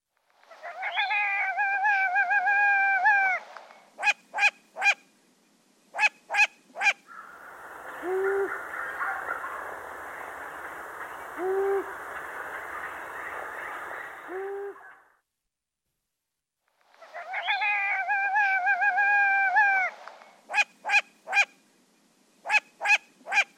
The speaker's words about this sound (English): Long-eared owl.